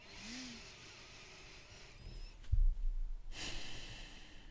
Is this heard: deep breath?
yes

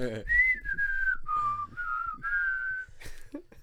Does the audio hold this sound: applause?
no

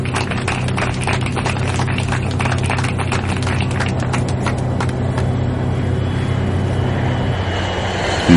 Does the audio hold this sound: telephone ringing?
no

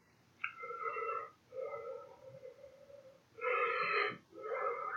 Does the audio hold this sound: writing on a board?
no

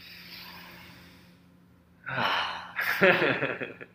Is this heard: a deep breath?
yes

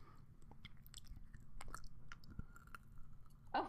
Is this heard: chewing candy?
yes

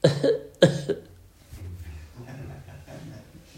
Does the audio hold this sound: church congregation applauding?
no

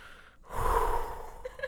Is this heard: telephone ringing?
no

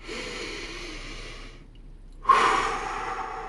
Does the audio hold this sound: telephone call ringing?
no

